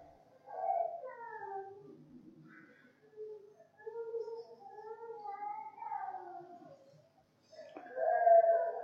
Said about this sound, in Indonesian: Iki bocah nangis ning kene apa suara sound system lain ya? Oh, masya Allah, ada anak kecil ya.